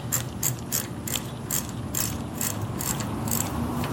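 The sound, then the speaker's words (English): Ratcheting clicks of a bicycle freewheel being threaded back onto a hub and tightened by hand during a hub overhaul. Many regular, sharp metallic clicks repeat at a steady rhythm with no talk. “And now I'll put the freewheel back on and start tightening it down.”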